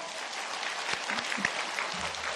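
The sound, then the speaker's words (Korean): A church audience applauds together in a steady, even wash of clapping at a moderate level. “우리 서로 수고했다고 박수 한번 하실까요?”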